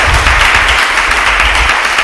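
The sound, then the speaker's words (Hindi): A church audience gives loud applause during a Bible reading service: a thick, continuous burst of clapping at full strength for about two seconds. “कौन कौन जाग रहा है? जरा जोरदार तालियां जाएं।”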